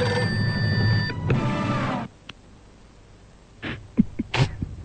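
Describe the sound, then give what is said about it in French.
A telephone rings for an incoming call with a harmonic ringing tone lasting about two seconds. A near-silent pause follows, then a few short, faint noisy bursts. “Alors, nous allons voir tout de suite si on reçoit un coup de... un coup de fil dans l'Isère.”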